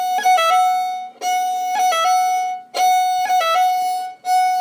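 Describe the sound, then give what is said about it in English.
A fiddle plays first-finger rolls starting on F, each ornament bowed in one stroke. Bright, sustained bowed notes are broken by quick flicks of grace notes, repeated a few times with short gaps between strokes. “we're always doing the entire roll in one bow stroke. So down, up, down, up. Okay, and then for the first finger roll, it starts on the first finger. So you play an F.”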